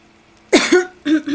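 Harsh human coughing in two short bursts, each a rough double hack with a brief gap between the bursts, heard alone without talk.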